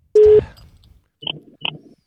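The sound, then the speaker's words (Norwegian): A telephone call is placed to a guest: one steady, mid-pitched ringing tone sounds, then two short, bright electronic chirps follow after a pause. “Da skal vi ringe dagens gjest, da.”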